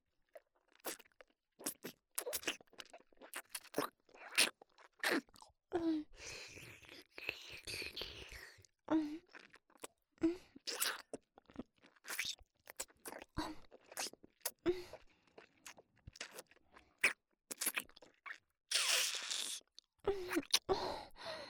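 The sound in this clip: Wet kissing and lip-smacking sounds: many short, soft smacks and clicks in an irregular series, faint overall, with occasional breathy noise between them.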